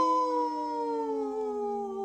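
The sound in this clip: A wolf howling: one long, sustained, harmonic-rich note that slowly drifts downward in pitch, loud and steady throughout with no other sounds.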